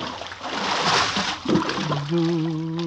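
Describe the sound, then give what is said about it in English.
A person pushed overboard from a boat hits the water with a loud splash and churning slosh, then a sustained musical tone takes over near the end. “Hey, why you're pushing me overboard? Hey! Help, Willie. You mustn't wake the others. But I can't swim.”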